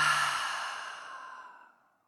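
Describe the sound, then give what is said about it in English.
A single long exhale through the open mouth during a guided deep-breathing exercise, a soft airy breath that starts fairly loud and fades away over about two seconds. “Open the mouth and exhale.”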